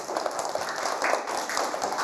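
A group of children clapping for a classmate during a classroom activity: a dense, even patter of hands that holds at a steady level for the whole stretch.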